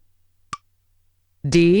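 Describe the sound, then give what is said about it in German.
A single short click comes from a long press of the start-stop button on a reading device. After a moment of silence, a voice begins. “Ich drücke Start-Stopp lange.”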